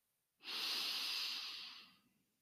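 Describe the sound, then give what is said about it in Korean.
A single deep breath drawn in during yoga practice, a steady airy hiss of about one and a half seconds that starts abruptly and slowly fades, with no talk. “자, 그때 호흡을 진행합니다. 호흡을 들여 마시고”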